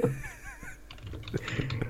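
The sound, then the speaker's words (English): Someone types on a computer keyboard, producing many quick, faint keystroke clicks in an uneven rhythm. “I just typed The World Is Enough.”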